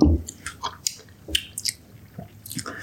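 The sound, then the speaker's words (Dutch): Wet mouth sounds as someone tastes homemade kombucha from a spoon: a soft thump, then several faint smacks, sips and clicks spread irregularly through the quiet. “En dan kan je zeg maar na een week, pak je even een, een, een, een lepel. Mhm. En dan haal je dit eraf. En dan ga je gewoon eventjes ga je proeven.”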